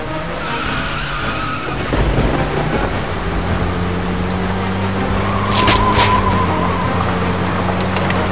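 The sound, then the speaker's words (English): A van drives past with a steady engine hum and road rumble, swelling to a louder, brief tire hiss midway before settling back. “Following the sound of the van!”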